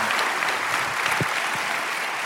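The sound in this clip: Audience applause welcomes a guest pastor at a church service: a dense, steady clapping from a large crowd, fairly loud and sustained throughout without a pause.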